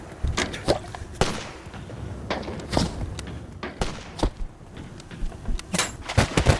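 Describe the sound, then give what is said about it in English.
Gunfire during a firefight as a soldier shoots back: many sharp, fairly faint cracks and thuds at irregular intervals, some in quick clusters, with no voices. “All right, I'm going to shoot back. Here goes!”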